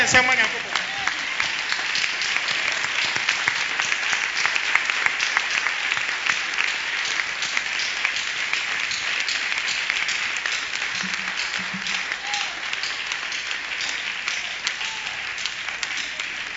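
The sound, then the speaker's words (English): A church audience applauding: dense, sustained hand clapping that continues steadily for the whole stretch, with faint voices mixed in. “Let's stand up and give God a hand clapping.”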